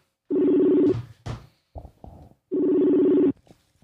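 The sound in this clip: A telephone call rings out on the line, with two long, loud ring bursts separated by a gap that holds a few short clicks and knocks.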